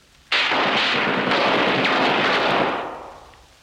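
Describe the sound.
Guns firing at a sheet of ordinary steel mounted in a frame: a sudden loud blast breaks into a dense, continuous rattling roar that holds for over two seconds, then tails off.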